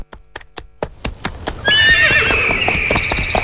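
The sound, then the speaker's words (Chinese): Horses are ridden toward a border marker: a steady run of many sharp clip-clopping hoof strikes. Partway through, a loud, high-pitched neigh breaks in and carries on over the continuing hoofbeats. “胡庸军和妻子贾南尔骑马前往3号界碑。”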